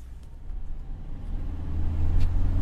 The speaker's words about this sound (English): We've been driving from the top of Tehran down the plain towards the south of the city.